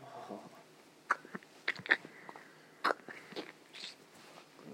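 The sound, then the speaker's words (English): Sharp clicks, taps and crackles from opening and handling a tin of Copenhagen long cut dipping tobacco, scattered irregularly over a quiet background with no talking. “I think I'm gonna put in some Copenhagen if you want some. This is where we bring out the Copenhagen long cut,”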